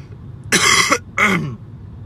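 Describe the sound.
Two harsh, dry coughs from a person with a dry throat, each a loud rasping burst of about half a second, separated by a short pause.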